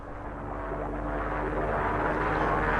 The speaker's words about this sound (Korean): 비행기 소리가 점점 가까워졌다.